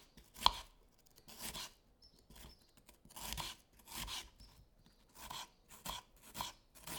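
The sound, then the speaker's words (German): A knife chopping peeled onions into small pieces on a cutting board: a run of soft, uneven, crisp strokes in short bursts with quiet gaps between, fairly faint throughout. “Ich lege die Zwiebeln auf das Brett und schneide die Zwiebeln in kleine Stücke.”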